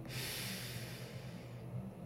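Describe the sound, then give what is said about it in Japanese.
A slow, deep breath drawn in through the nose during a guided relaxation breathing exercise, a soft, steady hiss lasting about two seconds, quiet and without talk. “ふー、これ鼻からでも口からでもどっちでもいいです。はい、吸って”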